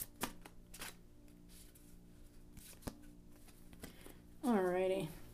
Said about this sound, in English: So I pulled three cards here um, from the Lightseers Tarot deck uh, by Chris-Anne.